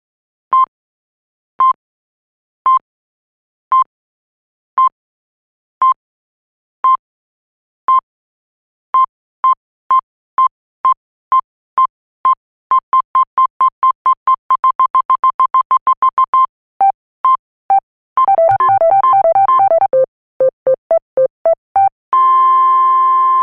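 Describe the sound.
Radio time signal from a non-commercial station: many short, clear high beeps, evenly spaced at first, then quickening into rapid pulses. A denser warbling burst follows, and the sequence ends on a long steady tone.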